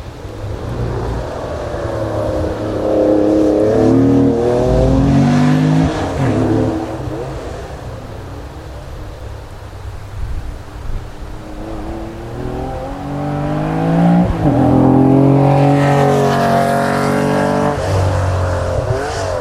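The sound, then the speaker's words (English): Loud Porsche 911 sports car engine racing on a circuit lap, a sustained roar that repeatedly climbs in pitch as it revs hard through the gears, with brief dips between the sweeps. “This is the sound of a Porsche 911.”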